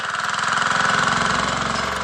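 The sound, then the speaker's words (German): Engine running at a road construction site: a steady mid-pitched chugging with a fast, regular pulse and a strong tonal hum, continuous and with no voices. “Auf das Verkehrspaket 1 folgt also nun das Verkehrspaket 2 und vorgestellt wurde dieses heute passenderweise auf einer Baustelle.”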